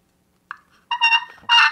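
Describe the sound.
A hunting game call imitating a turkey, sounded in a few short bursts: a brief yelp, then a longer run of raspy clucking notes, and a final louder burst. No voices are heard.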